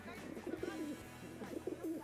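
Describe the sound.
Pigeons coo in a square in Venice: soft, low, murmuring coos in a couple of short rolling phrases, fairly faint against a light background hum.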